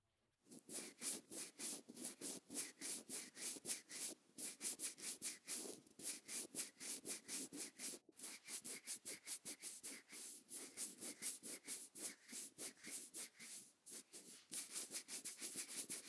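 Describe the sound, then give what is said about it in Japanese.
Fingers rubbed together close to the ear of a dummy head microphone for ASMR, making a long series of soft, dry, rasping strokes at a steady quick rhythm, quiet and alone with no talking. “ゾクゾクするだろう。耳のそばで指をこすり合わせているだけなのに、特別な道具なんか使わなくてもこんなに気持ちいい音が出せるんだ。”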